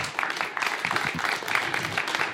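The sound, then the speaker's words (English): Clapping from a church audience as assistant pastors, youth leaders and worship leaders are honored: a soft, busy patter of many hands at a fairly even level, with voices mixed in. “Now that, I appreciate my senior leaders already clapping you.”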